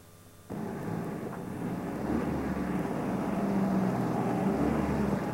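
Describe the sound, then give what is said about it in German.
A car engine runs while the car stands parked near a shop in town, with all spaces taken: a low, steady rumble sets in abruptly after a brief pause and holds at an even level to the end, with no voices. “Ich lasse den Motor laufen, du bleibst im Auto sitzen.”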